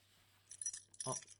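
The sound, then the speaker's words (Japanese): Keys jangle as someone hunts for a house key, giving two short bursts of bright metallic jingling and clinking with a faint low hum underneath. “すいません。勝手に鍵探させてもらいますからね。”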